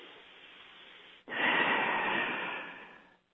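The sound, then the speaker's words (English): A group of people release one big collective exhale, a broad breathy whoosh that swells suddenly after a quiet hiss, holds for over a second, then tapers away. “we're going to release a huge breath collectively to push that energy ball upwards”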